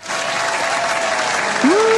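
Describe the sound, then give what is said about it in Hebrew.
Sustained applause from a group of actors, a dense even patter of many hands clapping for about two seconds, loud and steady throughout, with a brief voiced tone near the end. “איזה סאונד יפה זה כפיים.”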